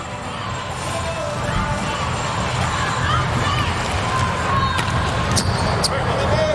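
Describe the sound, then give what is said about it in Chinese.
A volleyball serve by Lemański during a match: the ball is struck with a short impact over steady, loud crowd hubbub. “莱曼斯基的发球，”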